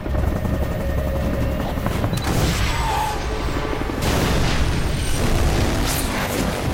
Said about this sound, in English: Barn's blown to smithereens